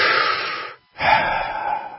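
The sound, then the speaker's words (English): A person takes a breath: two loud, airy rushes of breath, the first about three-quarters of a second long, then a brief silence, then a longer second rush. No voice is heard. “Flynn, let me breathe.”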